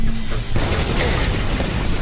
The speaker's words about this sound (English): Then they both watch as a brilliant shaft of plasma energy runs through the hull of Flint's ship.